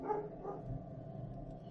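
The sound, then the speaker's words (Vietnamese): A dog barking wildly near a bedroom door in a hallway: a couple of short barks at the start, then a low, steady murmur. The sound is fairly quiet and no one speaks. “Nó dừng lại ở gần cửa phòng của tôi, rồi cứ sủa loạn lên.”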